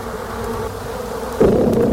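Honeybees buzz in a steady, droning hum that grows suddenly louder and fuller partway through, then holds alone at that level.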